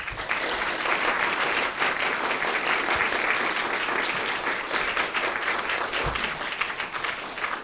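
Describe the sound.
Audience applause fills a room at the Commonwealth Club of California. Dense, loud clapping holds steady from start to finish with no break.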